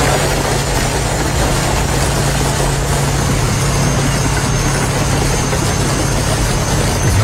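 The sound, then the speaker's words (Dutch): Bulldozers drive back and forth over a pile of about 200 scooters, producing a loud, continuous heavy engine roar with deep rumbling and vibration that holds steady throughout, with no voices. “Bulldozers die reden een keer of 20 hop over die 200 scooters heen. En daar bleef uiteindelijk een bergje schroot van over.”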